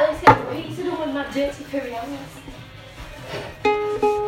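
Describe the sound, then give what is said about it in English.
A knife chops food, with one sharp chop near the start and a few softer clicks later, while people talk throughout. “I might just chop this one.”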